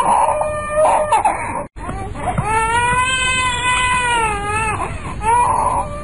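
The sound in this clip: A small child crying loudly in a town house: long, wavering wails that rise and fall in pitch, broken by one short silence early on, then continuing strongly to the end.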